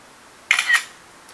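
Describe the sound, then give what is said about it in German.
A camera shutter clicks once, a short crisp snap as a photo is taken, standing alone against near silence. “Jetzt schieße ich das Foto”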